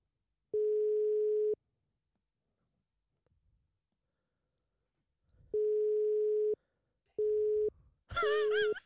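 A telephone ringback tone sounds on an unanswered call: a steady, low electronic tone in separate beeps. A long silent gap follows the first beep, then shorter gaps, and the last beep briefly overlaps a warbling sound.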